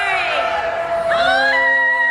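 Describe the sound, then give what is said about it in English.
A crowd of volunteers cheers and whoops as a woman steps off an Honor Flight plane in San Diego, with loud overlapping voices rising and sustaining throughout. “She's got a cheering section.”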